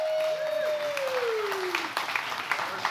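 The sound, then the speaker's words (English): An audience applauds to welcome speakers to the stage. The clapping is dense and sustained and stays fairly even for the whole stretch. “Let's give it up for them.”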